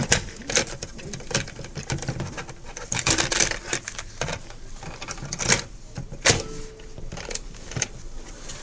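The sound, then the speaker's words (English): Plastic clicks and rattles as a cassette tape is handled and turned over, several sharp, irregular taps and clatters of fairly low loudness, with no talk. “Let me just take a moment and turn this tape over.”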